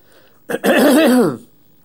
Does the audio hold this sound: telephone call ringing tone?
no